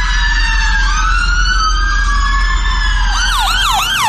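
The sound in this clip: Ambulance sirens wail loudly as dozens of ambulances head toward an explosion at an arena in Manchester. A long, slowly falling tone shifts into fast, repeated yelping sweeps near the end, over a steady low rumble.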